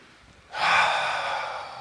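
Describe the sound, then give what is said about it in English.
An audience at a talk draws one long, deep breath together. The soft, airy rush starts abruptly, swells, then tapers slowly, with no talking. “everybody take a real deep breath.”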